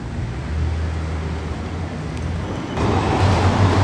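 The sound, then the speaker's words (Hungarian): City traffic on a busy boulevard while someone crosses it: a steady broad rumble and hiss of passing vehicles that swells louder toward the end, with no voices. “most kerünk át a József körúton, úgyhogy egy pillanatra azért megszakítjuk a beszélgetést.”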